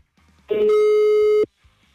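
Telephone line tone after redialing a call: a single steady, loud beep lasting about a second, alone, with near silence before and after.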